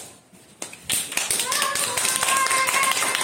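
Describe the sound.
Applause from a class of four-year-old children at a school Women's Day celebration: a few scattered claps quickly swell into dense, steady clapping, with voices mixed in.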